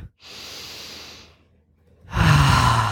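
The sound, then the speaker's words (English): One slow, deep breath drawn in with a steady airy hiss, a short quiet gap, then a loud, rushing exhale that continues to the end. “So just take a breath into the body right now. Let's breathe all the way down to the pussy.”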